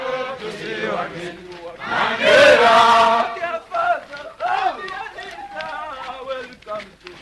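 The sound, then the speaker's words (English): Voices of 105 vocational training students chant together as they jog around their campus in the daily Mchaka Mchaka ritual, a loud, rhythmic group call with rising and falling shouted phrases. “All 105 students chant as they jog around the campus. It's called the Mchaka Mchaka.”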